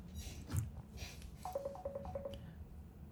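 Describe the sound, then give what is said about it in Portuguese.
A mobile phone signalling an incoming call with six short, evenly spaced beeps at one pitch, faint against low background noise. “A minha mãe está me ligando agora.”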